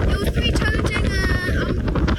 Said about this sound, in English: On top of the peak, the biting wind howls around and almost takes us off our feet.